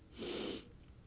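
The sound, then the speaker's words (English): A deep breath drawn in through the nose: one soft, airy sniff-like inhalation of about half a second, with no voices around it. “Take a deep breath, y'all. Let's take it.”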